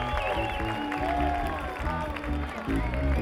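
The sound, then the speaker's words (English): Audience round of applause during band introductions at a concert, clapping mixed under ongoing music with a steady beat and sustained tones, moderately quiet throughout. “Thank you very much, Rob. Nice round of applause,”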